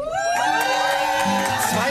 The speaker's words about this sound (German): 250 Leute kommen jetzt rein.